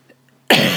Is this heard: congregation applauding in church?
no